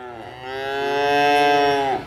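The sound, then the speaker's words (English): A cow moos once at feeding time on a Wisconsin farm: a single long, loud, steady-pitched bovine call lasting about two seconds that swells toward the end and then cuts off, with no talk. “Those are the cows of Visionaire Farms in El Dorado, Wisconsin.”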